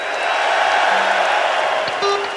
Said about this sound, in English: How about the crowd at Madison Square Garden?